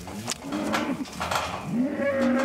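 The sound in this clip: Calves separated from their mothers during ear tagging with pliers moo repeatedly, their overlapping bawling calls rising and falling in pitch, loud and continuous.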